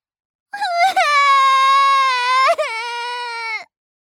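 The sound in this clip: A child's long crying wail from Niko, upset after a clay butterfly floated away. It is one loud, high, sustained sob heard alone, with brief catches near the start and near the end.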